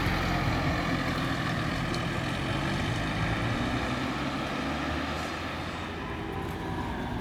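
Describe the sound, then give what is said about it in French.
A bus passing by, heard as a steady, low engine drone with broad road noise that holds nearly constant and eases slightly near the end. “Et le passage d'un bus.”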